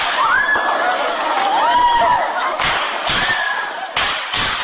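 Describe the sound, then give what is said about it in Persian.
Students scream during an armed attack on Kabul University, with several high, wailing cries that rise and fall in pitch, broken by a few sharp, loud bursts of noise. “این آن صدای فریادهای دانشجویان است که در جریان حمله به پوهنتون کابل ثبت شده است.”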